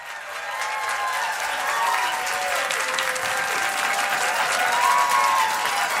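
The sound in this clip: A live studio audience at a music show applauds with dense, steady clapping throughout. A few cheers rise above the clapping.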